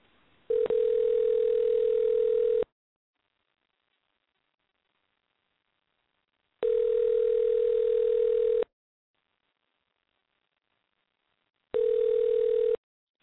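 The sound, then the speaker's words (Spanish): Telephone ringback tone on an outgoing call placed for an interview: three long, steady, even electronic tones, each about two seconds, separated by silent gaps, with the third cut short. “Ok, muy bien. Entonces, cuando él conteste, te cedo el paso una vez más para que tú empieces la entrevista. Muy bien, gracias. Ok, ahí viene la llamada.”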